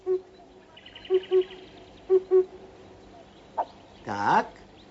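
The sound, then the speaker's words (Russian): A cuckoo calls with a low, muffled voice, giving two clear two-note calls in a steady rhythm, with a fainter note at the start and a harsher, louder burst near the end; no talk. “Кукушка говорит, что она все отлично слышит.”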